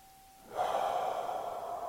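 A slow exhale during a guided breathing exercise: one soft, steady rush of breath that begins abruptly and holds at an even, quiet level, with a faint hum underneath.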